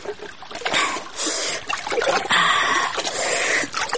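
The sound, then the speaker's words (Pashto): Flowing water splashes and trickles as a face is washed in a full, cold stream running along a channel underfoot. Continuous noisy gurgling and splashing with uneven surges. “ښکته وګوره د پښو لاندې دې ډک لښتی بهیږي اوس به پکې مخ وینځم”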